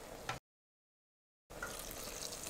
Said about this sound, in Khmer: ហើយយើងដាក់ទឹកល្មមដែលយើងចូលចិត្ត